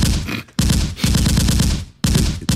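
Machine gun fire sound effect, loud rapid rattling in a few long sustained bursts separated by short gaps, with a final burst cut off at the end.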